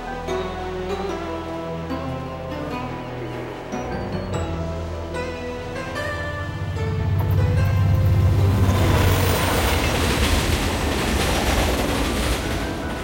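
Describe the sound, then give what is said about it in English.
Train rolling across the Mongolian desert, a steady rumble of rail noise that swells louder and rougher partway through and holds to the end. “The next day, the train rolls across the Mongolian desert, passing a camel caravan.”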